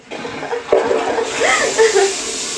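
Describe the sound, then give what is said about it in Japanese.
An automatic toilet flushes with a steady rushing, hissing water sound lasting a couple of seconds, while a voice talks over it. “トイレットペーパーだけ流れたんですけど”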